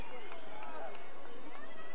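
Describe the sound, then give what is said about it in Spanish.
Baseball fans shout from the stands at a game in Durango, a dense, steady roar of many voices that fills the whole moment without a break. “Como gritan en las porras aquí en Durango. Pónchalo, pero pónchalo.”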